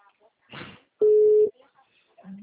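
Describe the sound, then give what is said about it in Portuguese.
A telephone tone after a dropped call: a single short, flat, steady beep of about half a second, loud against near silence, with brief fragments of voice before and after. “A ligação caiu.”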